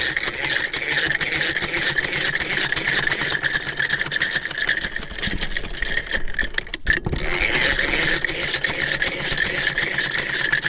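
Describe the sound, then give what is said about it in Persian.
A sewing machine run by a woman tailor working at home, a fast, continuous mechanical rattle that halts for a moment and then resumes. “خب خودت قسمی که دیدیم مصروف خیاطی هستی، چی چیزا میدوزی، از کجا یاد گرفتی خیاطی را؟”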